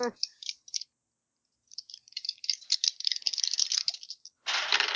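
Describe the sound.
Dice rattling and clattering during a tabletop game: a short burst of sharp clicks, a pause, then a longer run of tumbling rattles ending in a dense, loud shake.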